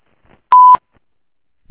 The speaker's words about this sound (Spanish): Si desea, deje su mensaje en la casilla de voz. Después del tono, grabe su mensaje.